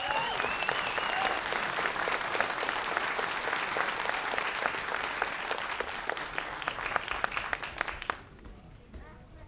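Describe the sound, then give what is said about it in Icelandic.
Meeting attendees applaud a unanimously passed vote, a dense, crisp burst of many hands clapping at a steady level for about eight seconds before cutting off abruptly into near silence. “Þetta er samþykkt með öllum greiddum atkvæðum og þeir megið þá klappa”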